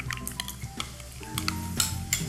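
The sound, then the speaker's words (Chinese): Mayonnaise and mustard being stirred together in a bowl: a utensil scrapes and clinks against the dish in a string of uneven, moderately loud strokes, with no voices. “我们把这个美乃滋跟这个芥末酱混合。”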